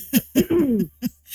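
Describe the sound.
Coughing after choking, a few harsh bursts with a drawn-out, strained, voiced rasp in the middle, loud and alone with no talk.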